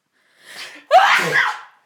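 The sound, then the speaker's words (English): A single loud, explosive human sneeze, preceded by a short, breathy intake and ending in a sustained burst that fades quickly. “I have a problem with sneezing.”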